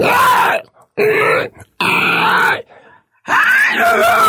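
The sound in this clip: A voice imitates a monster groan drawn in on an inhale: four rough, rasping growls, each long and loud, separated by brief silent gaps.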